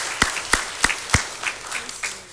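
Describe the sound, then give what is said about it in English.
A church audience gives a hand clap of praise as evenly spaced, sharp claps. Four loud claps come first, then fainter claps continue at the same steady pace. “Let's give a hand clap of praise again.”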